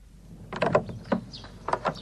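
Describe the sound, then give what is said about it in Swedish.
A door creaks open as people head back outside after a thunderstorm and rain, giving a few squeaky, tonal hinge creaks spread over two seconds at moderate loudness, with no talk. “Öppna dörren”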